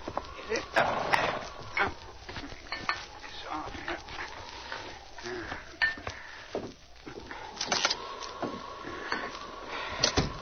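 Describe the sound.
A horse's hooves clop and slow as a rider reins up at a cabin, with a few irregular steps and shuffles. A voice calls out to the horse over them.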